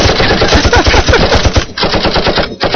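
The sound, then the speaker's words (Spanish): Loud gunfire from a sound effect presented as a shotgun: a dense, rapid string of sharp blasts in quick succession, broken by two short gaps near the end. “Si no fue un balazo así. No, fue así. Una escopeta.”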